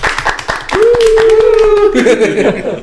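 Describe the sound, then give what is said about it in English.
Hand clapping in a quick run of sharp claps, joined by a drawn-out vocal cheer and light chuckling over and after them. “Insert clapping sound.”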